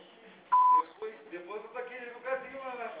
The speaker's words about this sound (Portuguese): Sua chamada está sendo encaminhada para a caixa de mensagem. Deixará sujeita a cobrança após o sinal. Após o sinal, grave sua mensagem.